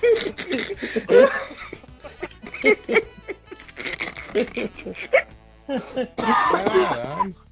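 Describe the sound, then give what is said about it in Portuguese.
Coughing right after hard laughter: a voice breaks into many ragged, breathy bursts with short gaps between them, moving between laugh-like huffs and rough coughs. It is fairly loud throughout. “todo mundo sabe, gente, que quando eu rio muito eu tuço.”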